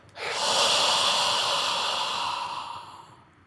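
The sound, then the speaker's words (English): A long, full breath is drawn in and let out in one steady, airy rush. It swells quickly, holds evenly for a few seconds and then tapers off. No words are spoken. “Now listen to the breath that I suggest we move toward. Filling up. Now the out breath.”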